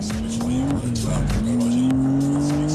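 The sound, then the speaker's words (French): A high-performance car accelerates at full throttle on a race track, capable of 0 to 100 km/h in 3.7 seconds; the loud engine note climbs steadily and roars continuously with no pause. “Allez, c'est parti pour la vis droite à fond absolu. Ça accélère bien, hein.”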